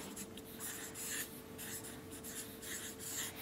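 Handwriting on paper, with many quick scratching pen strokes in short bursts and brief pauses between them, heard alone at a fairly quiet level.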